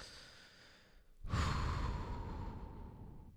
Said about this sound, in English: It's a big deep breath, as if you were getting ready to do something you don't enjoy. That was the deep breath you do before you, like, jump into an ice-cold lake or something.